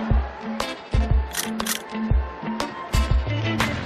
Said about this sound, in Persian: من میتونم یه عکس از اون 10 میلیونیه بگیرم؟ بله حتما، خواهش می‌کنم.